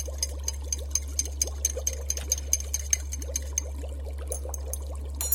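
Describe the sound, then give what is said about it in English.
Brisk stirring of a liquid mixture gives a rapid, steady run of many small clicks and wet ticks over a constant low electrical hum, with no voices. “Add this to the mixture. Stir briskly for 5 seconds.”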